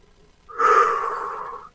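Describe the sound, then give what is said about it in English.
One deep breath drawn in, a single soft, airy inhale that swells quickly and then tapers off over about a second, heard alone with no talk. “Deep breath.”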